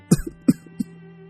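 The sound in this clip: A woman coughing three times: short, moderately loud voiced coughs spaced about a third of a second apart, then quiet.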